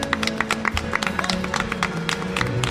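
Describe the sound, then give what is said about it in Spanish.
Sparse applause from a few people thanking a guest, with many separate claps landing at irregular intervals over a faint background. “darte las gracias y un aplauso por haber estado aquí con nosotros.”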